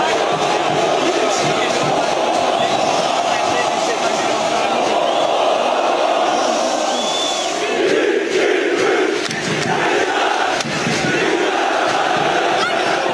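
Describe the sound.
Around 2000 Beşiktaş supporters chant and cheer at the airport as they welcome a Belgian winger: loud, sustained massed voices with rhythmic chanting and shouts, continuous throughout and briefly dipping in the middle before surging again.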